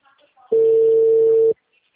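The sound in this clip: An unanswered phone call gives a single steady, low ringback beep lasting about a second, with faint talk just before it.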